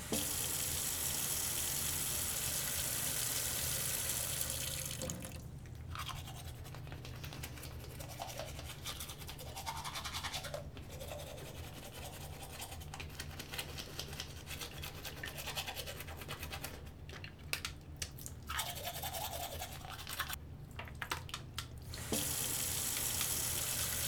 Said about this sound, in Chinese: 牙膏我已经帮你挤好啦，就放在洗手台上。你先去洗漱吧